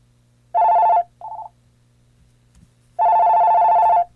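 An electronic telephone rings with an incoming call on a phone with an answer button that asks callers for their name. The bright, steady tonal ring comes as a short burst, then a brief fainter one, then a longer burst after a pause, over a low hum.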